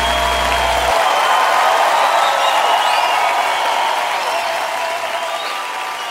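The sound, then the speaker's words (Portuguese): A church audience claps and cheers, a loud, continuous wash of applause with a few high whoops rising above it and tapering off slightly toward the end. “Faz barulho aí, igreja.”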